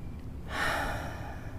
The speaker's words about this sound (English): Let's breathe in again and breathe out slowly.